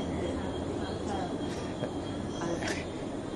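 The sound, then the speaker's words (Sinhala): A train rumbles in a steady, dense roar of rail noise, with faint high wheel squeals rising briefly over the continuous rolling sound. “සද්ද සංඥාව විතරයි දැන් අත්දැක්කේ. එනවාට අපි දැනුවත් උනේ කෝච්චිය.”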